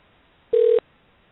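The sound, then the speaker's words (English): A telephone call dialing out gives one steady, mid-pitched tone of about a quarter second that stands alone against a quiet line. “sounds like we're at least getting dialing this time”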